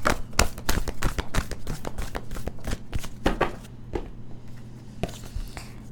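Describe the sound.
Cards are shuffled and drawn from a moon card deck, a dense, rapid riffle of crisp taps and flicks that thins out and softens over the final second.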